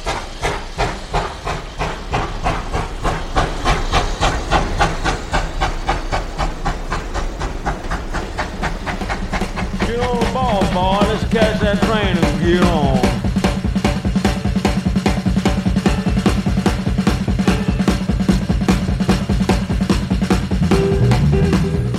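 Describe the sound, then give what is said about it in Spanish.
A steam locomotive hisses and chuffs as it pulls away. Steady rhythmic exhaust beats run over continuous loud steam hiss, and the sound grows heavier and a little louder partway through. “Nos subimos corriendo al tren, que se nos escapa con toda la gente que ya ha subido.”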